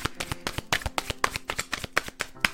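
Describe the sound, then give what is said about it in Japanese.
Cards from a chakra deck being shuffled before one is drawn: many quick, crisp riffles and snaps in an uneven patter, fairly soft, with no talking. “カード1枚引いていきます。”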